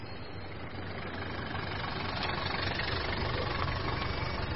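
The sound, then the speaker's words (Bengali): A car engine running steadily, a continuous low, rough rumble that holds even and grows slightly louder toward the end. “পারিজাত বক্সী গাড়ি চালু করলেন, থামলেন এসে লালবাজারে।”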